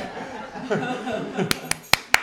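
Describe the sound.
Audience applause after a music act is introduced, heard as four sharp, separate claps near the end, preceded by chuckling and voices talking.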